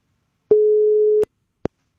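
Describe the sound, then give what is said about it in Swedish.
Telephone tone as a call connects: one steady mid-pitched beep lasting under a second, followed by a short sharp click. No voices. “Och då är det ju så att vi använder oss av telefon. Och så hoppas vi att samtalet kopplar upp och att det är någon som svarar.”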